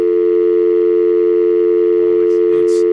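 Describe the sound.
A steady, loud telephone line tone at one constant pitch runs unbroken through a live radio call being dialed, with a few brief noise bursts near the end.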